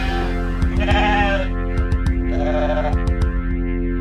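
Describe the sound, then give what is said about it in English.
Sheep bleating within a song, with two wavering, nasal bleats rising over steady musical backing and sharp percussive hits, loud and clear against the accompaniment. “It keeps bleating, love. It keeps bleating. It keeps bleating, love.”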